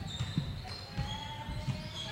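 Basketball dribbled on a court during a women's college game. A few low, dull bounces thud at uneven intervals over a steady bed of arena noise.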